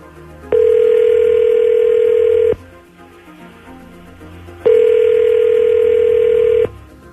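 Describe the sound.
Telephone ringback tone on an outgoing call while dialing someone up: two long, steady, mid-pitched tones of about two seconds each, separated by a two-second pause, with no voices.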